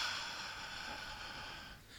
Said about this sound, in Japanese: まず吸って、軽く吸って、吐きます。音を出さなくて、結構です。はーっと普通にですね。ネットを聞かれている方意味がわからないので、私はちょっと音を出します。吸って、吐きます。